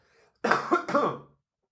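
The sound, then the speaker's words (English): A person coughing, a short loud fit of a few harsh bursts in quick succession, heard on its own with no speech. “excuse the cough. Sorry guys.”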